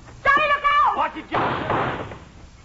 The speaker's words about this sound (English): That a closet there? Yeah, just my clothes in it, that's all. Stand back, Sheriff. I'm going to open it.